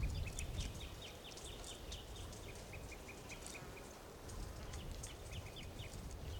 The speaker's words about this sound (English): Wild birds are calling a toucan nearby.